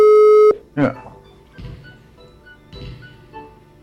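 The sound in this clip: A telephone ringing tone sounds as a single steady, clear beep of about half a second, followed by a few short bursts of speech.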